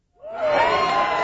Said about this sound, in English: That's the sound of incoming TK and kindergarten students opening a brand new school in Mission Bay.